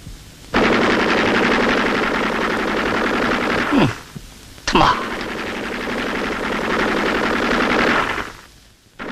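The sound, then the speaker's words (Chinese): Machine-gun fire in a battle scene, a rapid rattle of shots packed into two long, loud stretches. A brief pause near the middle separates the two stretches. “随后，侦察小分队战士在一班长等人枪声的掩护下，顺利通过了107高地。”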